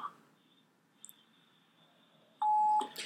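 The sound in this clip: A phone voicemail beep sounds as one loud, steady, mid-pitched tone lasting under half a second. Before it the line is near-silent apart from a couple of faint short blips.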